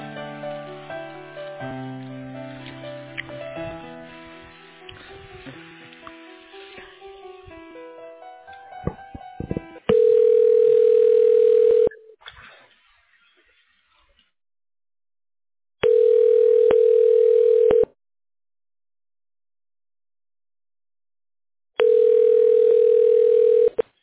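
Telephone ringback tone while a call is being transferred: several seconds of melodic hold music give way to three steady, buzzing ring tones, each about two seconds long and separated by silence.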